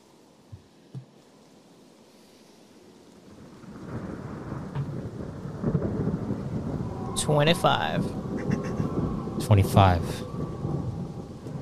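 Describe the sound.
Rain and rolling thunder play as background ambience for a tabletop role-playing game. After a quiet start with a couple of soft knocks, a steady downpour swells in with low rumbles, and brief voices cut through the storm.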